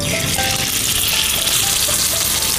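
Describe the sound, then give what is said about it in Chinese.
Sizzling of rice-filled, tightly tied food bundles frying in a pan, a dense, steady crackle of hot oil running continuously without pause or talk. “两头一紧里面就不容易露馅了， 没错， 就米出不来了。 现在呢咱就可以下锅去煎了，”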